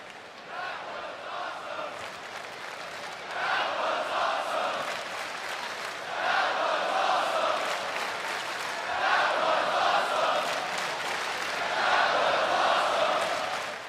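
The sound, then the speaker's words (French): A wrestling crowd of about 20,000 fans chants in unison at a show. The chant swells into loud, rhythmic waves several times over a constant crowd roar. “les 20 000 fans assistant au show n'ont pu que remarquer le génie de Wyatt et l'ont fait savoir avec le fameux chant « That was awesome »”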